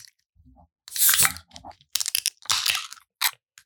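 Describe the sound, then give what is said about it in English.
Crunching, cracking sounds as something is broken open, with several loud bursts of splitting and grinding separated by short silences. “Oh, that was a good crack. I can feel it.”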